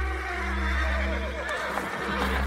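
Restless horses neigh harshly in a continuous, blended wash of calls rather than single distinct cries, with a steady low hum running underneath throughout.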